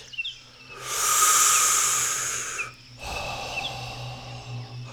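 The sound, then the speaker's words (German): Slow, deliberate breathing during a meditation exercise: one long, airy inhale of about two seconds, a brief pause, then a longer, softer exhale, fairly faint and heard alone without speech. “Ich atme ein, ich atme aus.”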